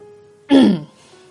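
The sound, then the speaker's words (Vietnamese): A single dry cough or throat clearing from a man, short and fairly loud, standing alone against near silence. “Cậu vội vàng buông tay của mình ra khỏi người cô, ho khan mấy tiếng.”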